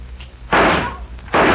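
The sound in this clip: Gunshots ring out as tin cans are shot for target practice on a cattle ranch: two loud, sharp blasts, each with a long, rough tail, separated by a short lull.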